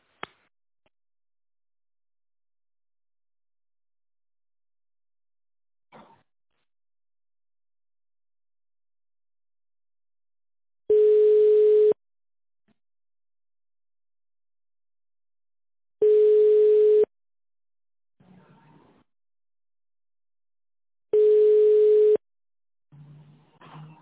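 A telephone ringback tone follows an automated answering message at a ship repair center: three steady, mid-pitched tones, each about a second long and evenly spaced, with faint scattered noises in between.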